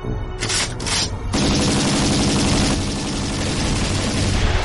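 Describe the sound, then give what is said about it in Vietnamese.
Two sides exchange gunfire in dense, rapid, overlapping bursts of shots that merge into a loud, continuous crackling roar, with no talking. “Xe đằng trước bỏ rời họ một đoạn dài, rất nhanh nghe được tiếng hai bên bắn nhau.”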